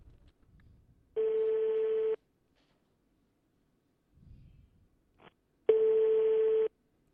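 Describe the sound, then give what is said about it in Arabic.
Telephone ringback tone on a call: two steady, evenly pitched tones, each about a second long, separated by a gap of several seconds with only faint noise between. “والرقم يرن. إنكم في العلبة. انقطع الخط.”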